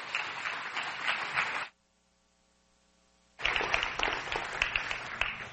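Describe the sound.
A church audience applauds to welcome a guest speaker: dense, steady clapping that cuts off abruptly into near silence for almost two seconds, then resumes just as full until the end.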